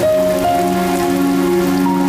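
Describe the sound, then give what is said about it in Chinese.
Steady rain pours down outdoors on the way to a residential compound gate, a dense continuous hiss that stays loud and even throughout, with a faint steady hum beneath it. “下雨了”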